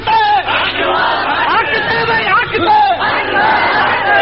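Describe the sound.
A crowd chants "Allahu Akbar" in answer to a Nara-e-Takbeer call. Many voices shout together in loud, sustained, overlapping cries that swell several times.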